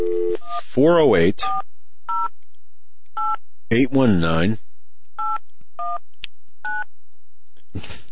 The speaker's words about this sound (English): Let's take a listen here when we put this on speakerphone. And can you hear that? Yeah. Okay. Let's see if we can get somebody on here. The number, the callback number is